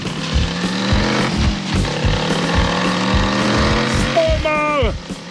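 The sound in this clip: A motor vehicle starts off and drives, its engine chugging steadily with a pulsing rhythm throughout. A voice calls out near the end.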